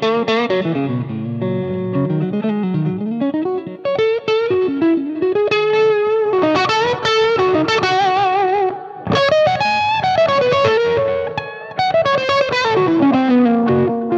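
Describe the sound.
An electric guitar plays on the neck pickup through effects with reduced drive. Melodic single-note lines and sustained, gliding notes ring out with mild distortion and a chorus-like shimmer, played loud and alone.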